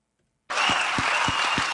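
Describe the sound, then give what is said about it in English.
Applause from an audience starts abruptly and runs as dense, even clapping for just over a second, with a few soft low thumps mixed into the wash. “Yeah, get up there. Clap, clap, you monkeys, clap.”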